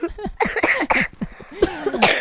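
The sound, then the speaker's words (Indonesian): A person coughs during a quiz competition: a few rough, sharp bursts in a quick, uneven series, fairly loud and with no talk over them. “Mau batuk.”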